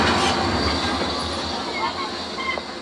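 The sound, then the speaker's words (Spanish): A train arrives at a station with a loud, continuous rumble of rolling wheels, thin high squeals from the wheels on the rails, and the noise easing slightly toward the end. “Un tren llega a la estación.”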